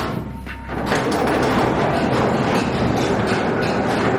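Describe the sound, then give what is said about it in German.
An old mine railway locomotive pulling a few wagons: a dense, steady rumbling clatter swells in after a quieter opening, then holds loud and even to the end, with no voices. “Das ist die alte Grubenbahn, eine alte Lok mit einigen Waggons hinten dran.”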